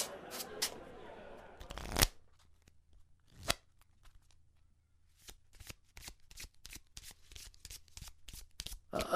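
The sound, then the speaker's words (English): Playing cards are shuffled during a card game: a few crisp riffles early, a quiet pause, then a long series of rapid, sharp flicks and snaps of the deck, faint overall. “How long are we going to keep playing cards?”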